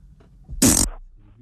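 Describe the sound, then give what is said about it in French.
A single loud, rasping fart bursts out for about a third of a second, with a low rumbling body and a brief trailing flutter, alone between quiet stretches. “Ça te dérange pas si je pète? Oh, tu veux me péter?”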